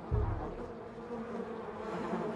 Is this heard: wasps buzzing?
yes

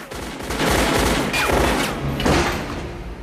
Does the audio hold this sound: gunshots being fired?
yes

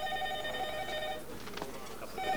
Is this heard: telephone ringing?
yes

